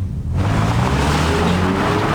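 A car pulls away outside a courthouse, its engine a loud, steady roar with a tonal whine that climbs in pitch as it accelerates, with no voices.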